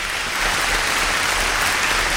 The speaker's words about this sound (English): She said you can have a little bit of applause. So that's it. That's all the applause you can have.